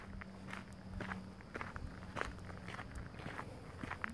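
Footsteps crunch through bush at night in a steady walking rhythm. Many soft, even steps sit over a low background, with no voices.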